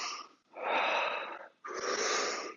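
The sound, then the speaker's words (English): Forceful breathing from a deliberate over-breathing exercise: three loud, airy breaths follow one another with only brief pauses, each a long rushing whoosh, with no talk. “let's just do like maybe 10 seconds of breathing too much.”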